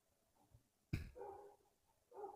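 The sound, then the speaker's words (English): A dog barks at the neighbour's dogs: one sudden sharp bark, then a few longer, tonal yelps or whines, all fairly faint. “That's my dog. Sorry if you hear that. No, no. Yeah, dog. Oh, yeah, you got a dog. That's right. I forgot about that. He's yelling at the neighbor's dogs.”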